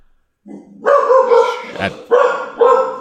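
A dog barks a few times, loud and sharp, in short irregular bursts separated by brief pauses.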